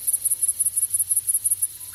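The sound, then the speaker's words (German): Grasshoppers chirp in a steady, rhythmic pattern of many short, high-pitched pulses, grouped in quick bursts and repeating evenly, faint and alone with no voices. “Heuschrecken und Grashüpfer”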